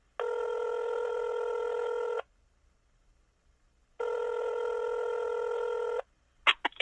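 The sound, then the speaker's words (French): A telephone call ringing out on the line: two long, steady ring tones separated by a pause of silence, followed by a few brief clicks at the end. “Brigitte Zanda, je l'appelle”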